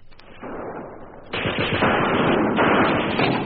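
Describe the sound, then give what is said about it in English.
Field guns and mortars firing in battle: dense, overlapping blasts and rapid bursts of fire, quieter at first, then jumping louder and continuing as a heavy, sustained barrage. “Field guns and mortars raked the newly won Australian position.”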